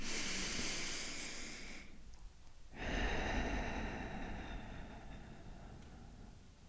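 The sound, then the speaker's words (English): A deep breath drawn in through the nose and let out through the mouth: soft, airy breathing noise that stops for a brief pause partway through, then resumes as a long, steady exhale, with no talking. “let's take a deep breath in through our nose and out through our mouth.”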